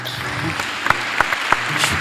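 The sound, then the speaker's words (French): Applause from an audience during a church sermon, a steady wash of clapping with a few sharper claps standing out at intervals. “Applaudissez cela.”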